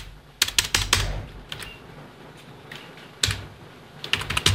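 Clacky typing on a computer keyboard while trying to enter text in a run dialog box, in several quick bursts of keystrokes separated by short pauses, with no voices.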